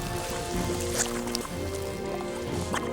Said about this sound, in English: Stage 2. Warm liquid goo phase beginning.